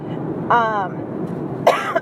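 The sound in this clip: Two short, rasping throat-clearing coughs from one person, separated by a pause of about a second, over steady low background noise.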